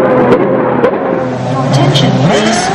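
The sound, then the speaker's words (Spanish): Formula 1 race atmosphere: a dense, continuous roar of racing engines with droning tones that waver and shift in pitch, loud and steady throughout. “El ambiente de una carrera de Fórmula 1 engorda.”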